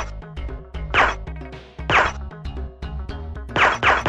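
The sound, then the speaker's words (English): Gunshots in a comedic spy-interrogation scene: a few loud, sharp bangs burst out at intervals over a steady tonal background, with no voices. “Okay, Gex, now you can shoot him.”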